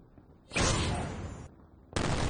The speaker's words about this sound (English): Okay. Yeah, you see the missiles fire off.